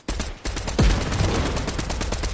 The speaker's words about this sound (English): I didn't know you threw a grenade. Yeah, that's why I yelled stay back several times in succession.